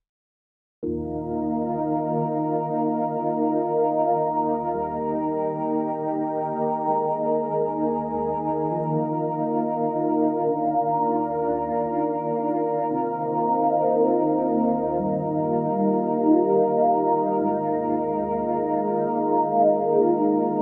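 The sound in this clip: Sustained harmonic synth notes pass through a notch filter that a slow LFO sweeps up and down between low and upper-midrange pitches. The repeated, gliding hollow sweeps move across a steady, loud chord with no talking.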